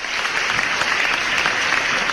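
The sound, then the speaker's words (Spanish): Steady applause from a crowd fills the whole stretch as dense, continuous clapping at an even, fairly loud level, with no talk over it. “se merece todos los aplausos, no sé dónde están los aplausos, ¿hay aplausos, gente? Ahí está, muy bien”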